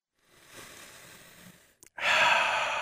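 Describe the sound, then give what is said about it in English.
A deep breath: a soft, airy intake, then after a brief pause a much louder, rushing breathy exhale that carries on to the end. “deep breath, deep breath”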